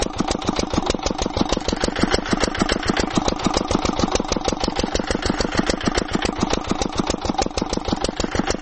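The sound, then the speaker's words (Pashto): Engine of a borehole well-drilling rig working in the courtyard of a house: loud, steady, rapid chugging pulses that hold an even rhythm and pitch from start to finish, with no voices. “دی وسه د هغه کور په انګړ کې برمه وهي چې له دې وړاندې درې نورې هم وهل سوي وي”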